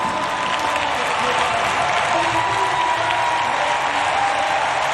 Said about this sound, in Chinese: 收获了全场的掌声。